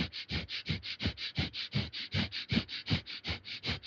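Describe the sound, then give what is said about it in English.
Rapid panting breath through the nose: many quick, evenly spaced breathy bursts with a sharp hiss, repeating in a fast, steady rhythm throughout. “if you do some very rapid panting breath like this, it can be as simple as 2 minutes of rapid panting through the nose”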